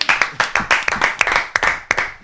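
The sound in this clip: Lively audience applause for a guest on a television program: many crisp, loud claps landing in a fairly regular, brisk rhythm, with no talk over them.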